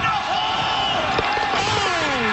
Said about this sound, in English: listen to the crowd. They're going to go nuts when he hits this thing.